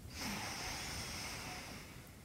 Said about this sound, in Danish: Tag lige en indånding.